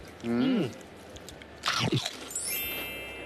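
Crisp crunching bites of tom yum flavoured crackers made from mushrooms: a short voiced sound, then a quiet pause, then one sharp brittle crunch with a few crackling fragments fading into light background noise.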